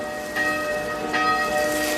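A church bell ringing with a sustained, shimmering metallic tone. A couple of clear strikes about a second apart each swell and ring on over a faint hiss.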